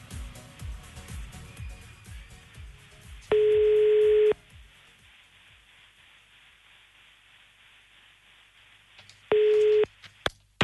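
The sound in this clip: Telephone line tones heard while a phone number is dialed: two steady, even tones, a longer one and then a shorter one, stand out over a quiet, low background.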